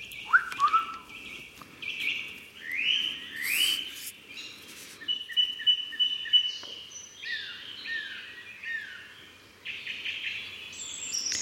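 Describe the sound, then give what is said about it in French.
Birdsong in a French forest in the morning: many chirps, trills and whistled calls overlap and change pitch quickly over a steady soft background, with no voices. “Alors, ce qu'on entend, c'est le son d'une forêt française, pour être plus précise, le matin même”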